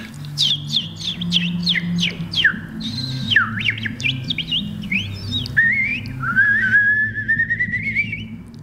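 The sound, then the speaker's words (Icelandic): An unidentified bird sings a run of quick, bright chirping whistles that sweep up and down, then holds a long, steadily rising whistle, all over a low, steady rumble. “Nei, ég veit ekki hvað fugl þetta var. þetta var einhver fugl.”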